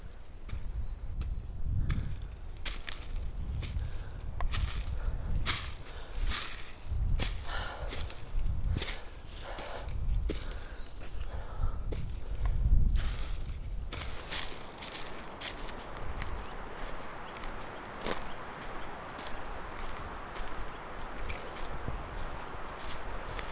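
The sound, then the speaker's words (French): Footsteps of a person walking, a steady run of crunchy, scuffing steps that continues without pause for the whole stretch, with no talking. “Je vais essayer de le faire en marchant.”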